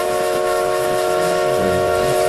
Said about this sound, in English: Then stand out there until the train is gone.